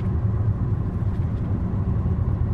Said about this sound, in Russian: Они едут в авто.